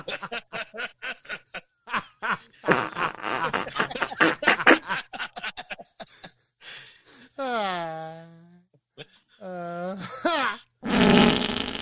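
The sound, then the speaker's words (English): Comedic fart sound effects played back in a rapid run: a dense string of short, buzzy blasts, then a few longer, wobbling ones that slide down in pitch, ending on a rough noisy burst. “That was my laugh, like that fart. Here, let's just hit it again.”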